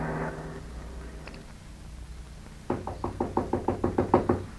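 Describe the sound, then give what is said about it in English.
Knocking on a door: a quick run of many sharp, evenly spaced raps, growing slightly louder toward the end. A brief tonal sound fades out well before the knocks begin. No voices. “But when I heard that knock on the door,”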